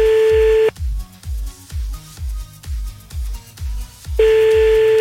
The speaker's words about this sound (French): Allez hop, c'est parti, on y va, on appelle maintenant.